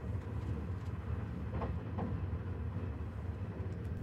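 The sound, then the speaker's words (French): Passenger train running on rails as it nears Paris Gare de Lyon. A steady, low rumble and hum holds at an even level, with a few faint rail clicks and no voices. “Chers passagers, votre train arrivera en gare de Paris-Gare de Lyon dans quelques minutes.”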